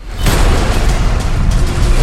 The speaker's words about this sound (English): That's a bomb. All right, dorks, what are we blowing up? What? The Vatican?